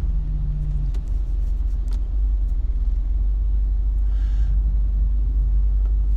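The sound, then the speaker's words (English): Steady low road rumble of a car being driven, heard from inside the vehicle, a continuous droning engine and tyre noise at an even level with no talk. “that's what happens when you podcast and drive.”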